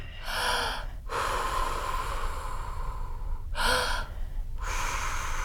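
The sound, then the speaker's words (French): Breath is blown out hard in two strong, airy bursts, meant to make music, with a quieter hiss of breathing between them. “heureusement qu'il reste mon souffle pour faire la musique”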